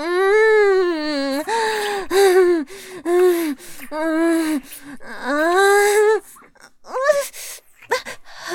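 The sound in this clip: A puppy whimpers in a run of many high, drawn-out whines that rise and fall in pitch, broken by short gaps and a few sharper, shorter cries near the end.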